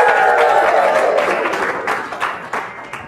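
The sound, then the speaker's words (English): Live studio audience applause at a quiz show, a dense wash of clapping with some shouting voices early on, loud and sustained before thinning slightly toward the end. “Give it up for our audience.”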